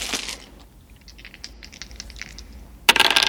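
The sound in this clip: A dice roll serves as a sound effect for a gaming segment: an opening clatter, a run of light, scattered clicks and ticks, then a sharp, bright burst near the end.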